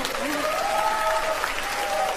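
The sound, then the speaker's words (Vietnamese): An audience at a comedy stage show claps in steady, even applause, with a voice heard over the clapping. “Xin quý vị cho một tràng pháo tay cho em sung lên.”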